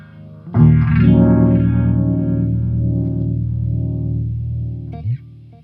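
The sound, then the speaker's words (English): Electric guitar played through a prototype Univibe-type effects pedal: one strummed chord rings out with a warm, throbbing, wavering modulation and slowly fades, followed by a brief extra note near the end. “This is a Univibe type pedal. Can we hear it a little bit?”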